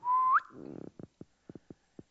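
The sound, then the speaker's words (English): A person whistles to call a dog: a single steady note that slides sharply upward at its end, followed by several short, soft knocks spaced irregularly in near silence. “I just whistle.”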